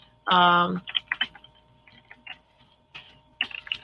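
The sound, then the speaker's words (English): Typing on a computer keyboard, with quick, irregular bursts of light clicks separated by short pauses, after a brief vocal sound at the start. “Let me type this in really, really quick.”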